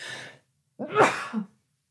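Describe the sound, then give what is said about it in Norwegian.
A couple of sneezes: a short airy burst, then a brief pause and a louder, fuller sneeze with a short tail. “Det kom bare akutt et par nys her nå.”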